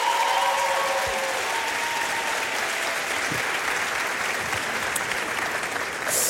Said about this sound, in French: Donc déjà, du bruit pour vous, du bruit pour eux.